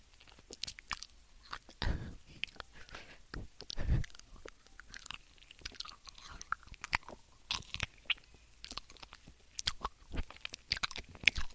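Someone eats cooled porridge: many faint, irregular chewing clicks and soft squishy bites, with no talk.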